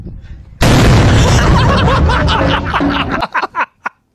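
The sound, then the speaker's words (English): A flashbang stun grenade goes off in a video being played back, with an abrupt, very loud blast that roars for over two seconds before cutting off, followed by snickering and chuckling. “Everybody got stunned. That's a flashbang right there.”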